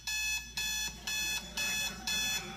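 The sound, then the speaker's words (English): An alarm clock rings shrilly in the morning, a piercing high beeping in a steady, evenly spaced series of bursts with brief gaps between them. “When my alarm clock's shrill noise pierces the quiet of the morning”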